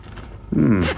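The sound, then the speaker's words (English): A wallet being opened gives one brief, loud rasping burst lasting about half a second, with no talking around it. “Well, open up the wallet, have a look and see what's inside.”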